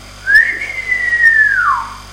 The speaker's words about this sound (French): Cela fait, il siffla.